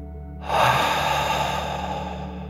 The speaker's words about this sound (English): breathe out through your mouth, pretending you are breathing fire. Ready? Take a deep breath in and out.